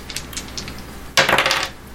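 Dice are rolled during a tabletop role-playing game: a few faint clicks, then a loud, brief clattering rattle across the table that quickly dies away.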